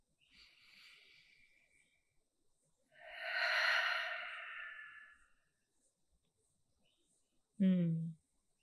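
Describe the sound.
Slow, deep breaths taken with eyes closed, hands on heart and belly, in a calming exercise: a soft, airy inhale, a longer and louder breathy exhale, then a brief voiced sound.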